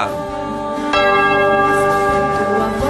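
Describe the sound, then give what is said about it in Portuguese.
A church bell rung by the sacristan before Mass gives a rich, sustained metallic tone, with a fresh, louder strike about a second in whose ring carries on to the end. “Vai lá, sacristão, toca o sino, homem, vai lá.”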